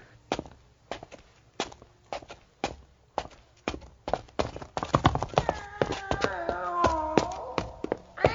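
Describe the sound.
Footsteps descend a staircase into the cellar of an old house. Slow, evenly spaced heavy steps give way to a quicker, denser run of knocks. Tonal sliding sounds run over the later part.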